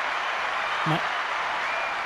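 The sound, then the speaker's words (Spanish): Applause welcomes a guest, a dense, even patter of clapping that runs steadily through the whole stretch at a moderate level. “hoy tengo una gran invitada que debo recibir con fuertes aplausos.”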